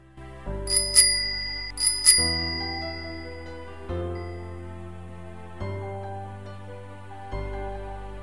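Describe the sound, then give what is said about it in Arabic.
A bright bell is rung on arriving home, two quick double rings near the start, while a low sustained tone swells again every couple of seconds beneath. “ثم قرعت الجرس.”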